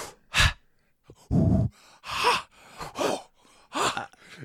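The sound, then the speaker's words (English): People imitate a horror-film ritual with a series of sharp, loud gasping breaths, separated by quieter breathy exhales and short pauses. “if you've seen the movie, you know we're making that little breath noise.”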